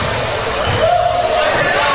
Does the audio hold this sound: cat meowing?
no